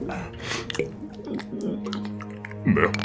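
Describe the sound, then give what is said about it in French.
A person drinking slowly, with soft wet sipping and swallowing sounds that come and go over a few seconds. Faint throat and mouth noises sit over a low steady background hum. “Tenez, buvez lentement.”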